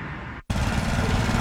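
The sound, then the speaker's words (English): A power lawn mower runs on a blazing hot, dry day. After a brief silence its loud, steady droning engine noise cuts in and holds evenly to the end. “I'm just mowing the lawn.”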